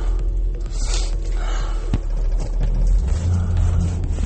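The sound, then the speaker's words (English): Road traffic: a loud, continuous low rumble of vehicle engines with a brief accelerating swell partway through. “There's a lot of traffic right now. Might run into a lot of traffic back home.”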